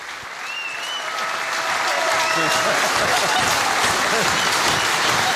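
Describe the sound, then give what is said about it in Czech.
Applause from a group of boys: clapping that swells over the first seconds and then continues steadily, with voices faintly audible over it. “jste to musela slyšet, že chlapci vám tleskali a ty vás vidějí zezadu”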